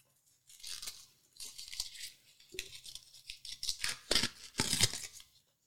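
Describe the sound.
Crinkly tearing and scraping as the foil capsule is cut from a bottle of rosé wine: a few short rasping bursts, with sharper crackles near the end and no voices.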